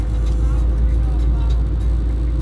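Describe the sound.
Car traffic roars on the Marginal Tietê express lanes in São Paulo as a dense, low, steady road rumble. It holds constant throughout, with no distinct vehicle passes standing out.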